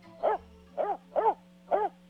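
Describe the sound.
A pet dog that was recently taken to the vet barks four times in short, sharp, evenly spaced bursts over a faint, steady low hum, with no talking.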